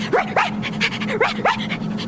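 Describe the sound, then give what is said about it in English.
A dog gives short, sharp yipping barks that sweep upward in pitch, four in all, set in two quick pairs, with soft panting between them. “Woof, woof.”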